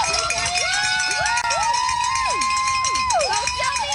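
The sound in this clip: Runners and a cheering crowd at the Falmouth Road Race: dense, steady crowd noise with loud cheering, and shrill shouted calls repeatedly rising and falling in pitch.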